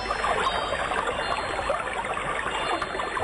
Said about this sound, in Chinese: 这是水流的声音，